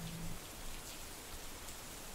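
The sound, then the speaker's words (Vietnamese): Heavy rain pours during a wartime night, a dense, steady hiss of downpour with no voices. “chúng tôi chỉ đành trông cho mưa bớt nặng hạt để cuộc đánh úp đêm nay được diễn ra theo kế hoạch.”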